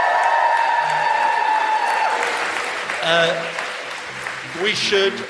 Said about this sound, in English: Definitely the best audience. Give yourself a big whoop.